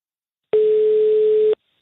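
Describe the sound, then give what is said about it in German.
A telephone line tone after dialing an Austrian number: one steady, loud, flat tone lasting about a second, with silence before and after. “dann wähle ich hier einfach mal eine Nummer aus Österreich”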